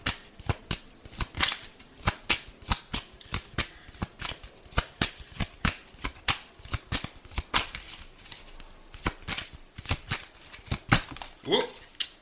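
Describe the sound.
Tarot cards being shuffled, with many crisp snapping slaps in a fairly steady, quick rhythm that keeps going for about twelve seconds.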